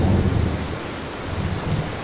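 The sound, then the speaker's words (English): Heavy rain in a thunderstorm: a dense, steady roar of rainfall with low rumbling thunder underneath, loud and continuous throughout. “Meanwhile, the storm has increased.”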